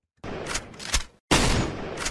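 Gunfire from a gun used to shoot a snarling young beast: two loud, abrupt bursts of harsh noise, each with a sharp onset and rattling peaks, separated by a brief silence, with no voices.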